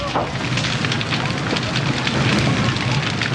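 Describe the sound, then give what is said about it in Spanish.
Fire roars through a wooden factory, a dense, steady rushing noise that holds at an even loudness throughout. “La hermosa factoría está siendo pasto de las llamas. Todas las instalaciones fabricadas en madera arden con gran facilidad.”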